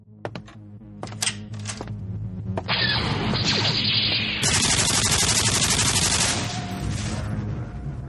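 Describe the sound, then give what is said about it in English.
A double-barreled nuclear plasma cannon fires in a video game: a few sharp blasts open, then the sound swells into a loud, dense, continuous barrage of electronic bursts and noisy roaring. “I just conquered the outer rim planet of Pico Pond with my trusty double-barreled nuclear plasma cannon. Well, I just did in this video game.”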